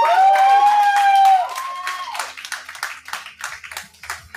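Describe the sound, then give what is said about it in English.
Audience applause after a singer's performance in a judged singing competition: a long sustained sung note ends and a loud burst of dense clapping follows, slowly thinning toward the end. “Pretty good audience reaction on that.”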